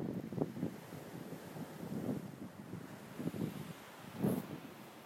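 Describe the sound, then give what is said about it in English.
Wind buffeting the microphone alongside ocean waves: a continuous low, rumbling wash with irregular surges, fairly quiet overall and with no voices. “The wind. The waves are hypnotizing.”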